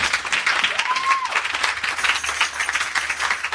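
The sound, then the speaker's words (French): Congregation clapping in church to acclaim the Lord: full, continuous applause from many hands, loud and even throughout with a busy, crackling texture. “Quelqu'un peut acclamer le Seigneur.”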